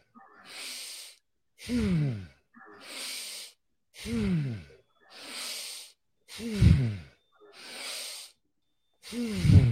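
Breathing in a breathwork exercise: four noisy hissing inhales alternate with four voiced, sighing exhales in a steady, slow rhythm, each breath lasting under a second.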